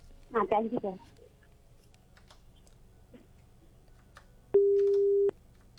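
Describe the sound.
A telephone busy tone sounds after a radio phone-in caller disconnects. A short burst of voice comes first, then after a quiet gap a single steady mid-pitched beep lasts just under a second.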